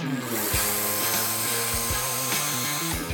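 A cordless rechargeable screwdriver driving screws: a continuous whining motor hum whose pitch steps up and down as the load changes, with a few brief jolts.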